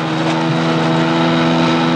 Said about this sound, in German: Komm, versuch den Motor anzumachen. Okay, ich bin schon dabei. Mach schnell, Bill. Wow, es hat geklappt. Vollgas raus.